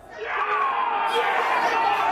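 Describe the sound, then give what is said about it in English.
Scattered cheers and shouts rise from people around Boston: overlapping voices swell quickly and then hold loud for about two seconds. “Today, those shouts are staggered. We get a splattering of cheers, like scatter points on a graph.”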